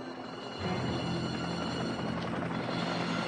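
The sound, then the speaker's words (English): A helicopter hovers over trees, its rotors and engine giving a steady, droning whir with a constant hum. The sound swells just after the start and then holds level and fairly faint. “He spots a chopper hoving over the trees.”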